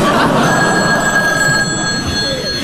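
A telephone rings with a loud, steady, continuous bell tone that lasts the whole time without a pause.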